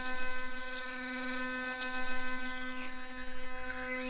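An electric toothbrush buzzes steadily for about four seconds, a bright harmonic hum with a quick pulsing flutter. It stays fairly faint, with no voices.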